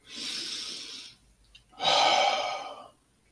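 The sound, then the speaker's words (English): A deep breath taken while a group gathers to give thanks: two long, breathy rushes of air separated by a short pause, the second louder and fuller than the first. “Deep breath.”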